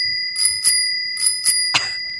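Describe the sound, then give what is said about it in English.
A bicycle-bell sound effect played from a soundboard: bright metallic dings in a few quick pairs, followed by one last ring, over a sustained ringing tone. “Please tell me that's a soundboard effect and not an actual bell that you now are in possession of. No, I am not. I am not physically ringing a bell.”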